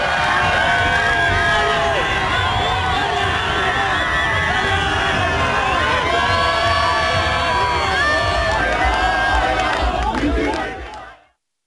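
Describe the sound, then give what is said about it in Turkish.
Crowd of fans, some in Real Madrid shirts, loudly chanting and cheering Arda Güler's name at a Turkish national team training session in Arizona; a dense, continuous wall of many voices holds for about eleven seconds, then cuts off quickly. “Arizona'da Real Madrid formalı taraftarlar milli takım antrenmanına geliyor ve Arda Güler'i izliyor. Az önce gördüğünüz Arda tezahüratları yapıyorlar.”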